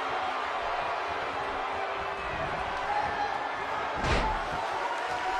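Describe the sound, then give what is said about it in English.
A crucifix slam in a wrestling ring: one heavy, sharp body impact on the mat near the end, standing out above a steady wash of crowd noise. “Crucifix slam by Finn Balor and a dropkick to the back of the head once again.”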